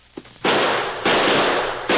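Gunfire from a six-shooter revolver during a shootout: a small pop, then three loud, harsh blasts, each followed by a sustained rough roar that runs into the next shot.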